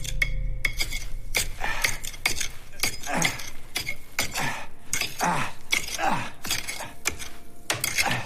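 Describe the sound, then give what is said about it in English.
A pick and a meat tenderizer, used as hammer and chisel, chip away at gray material framing a skylight. The result is many sharp, irregular metallic clinks and knocks, fairly loud. “Using the pick and tenderizer as a hammer and chisel, the man chips away at the gray material framing the skylight.”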